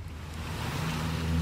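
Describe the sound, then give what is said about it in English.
Low, steady engine drone of a firefighting airplane circling over a wildfire burning Mediterranean scrub after a water drop. The hum builds gradually in loudness beneath a broad, wind-like rushing noise, with no voices. “This airplane has just dropped some water on one of the fires, and it's circling over the area.”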